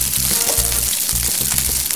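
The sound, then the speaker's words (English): Rice frying in oil in a hot pan, a loud, steady crackling sizzle that runs unbroken throughout, with a low, uneven bubbling beneath it. “Now, if you see if your pan's getting hot, like the rice is absorbing a little bit of your oil, that's okay. That's what you want.”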